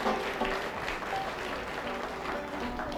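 Steady audience applause for a singer and guitarist, a dense, even wash of clapping that holds at the same level throughout.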